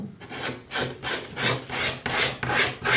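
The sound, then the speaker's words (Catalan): Repeated rasping strokes of a sharpened knife shaving wood to shape an instrument, a steady run of many even scrapes with short gaps between them, each a breathy rub, heard alone with no voices. “Però en aquest treball hi ha molt de contacte amb la fusta. Se l'ha de tocar molt. Llavors, això és la ganiveta que et parlava.”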